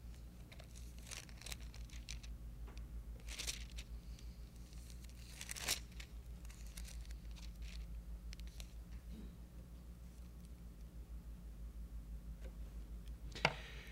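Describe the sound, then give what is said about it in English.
Pages of a Bible being turned: a few dry, papery swishes and rustles spread across the stretch, over a steady low hum and no talk. “let me see if I can find it real quick. I think it's 1 Timothy. It's either 1 or 2 Timothy.”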